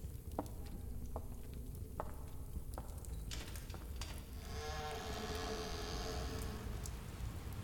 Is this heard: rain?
yes

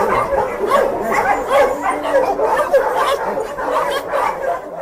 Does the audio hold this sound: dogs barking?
yes

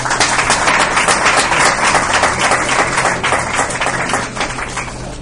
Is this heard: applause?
yes

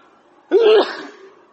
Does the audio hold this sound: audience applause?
no

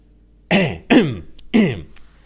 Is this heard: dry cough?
yes

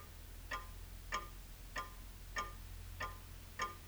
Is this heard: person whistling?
no

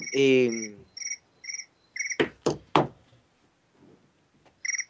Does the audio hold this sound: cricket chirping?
yes

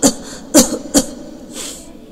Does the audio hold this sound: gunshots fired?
no

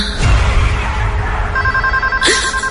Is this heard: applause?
no

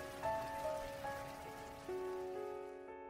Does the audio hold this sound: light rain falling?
yes

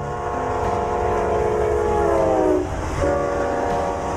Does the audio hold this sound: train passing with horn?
yes

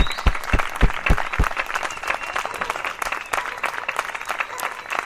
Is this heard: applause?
yes

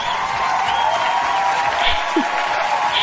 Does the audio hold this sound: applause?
yes

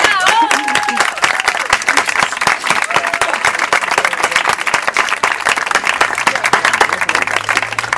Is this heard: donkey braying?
no

